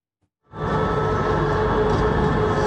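Steady rolling rumble of a tram carrying passengers in Samsun, Turkey. After a quiet start the broad, loud noise rises within half a second and then holds even and continuous.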